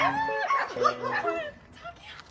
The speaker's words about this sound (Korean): 산책길에 자주 마주치던 강아지가 그새 새끼를 낳았네요.